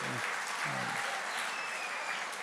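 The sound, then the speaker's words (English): Audience applause for two volunteers, a pair of men called up on stage: a thick, even wash of many hands clapping that stays level from start to finish. “Let's give these guys a hand.”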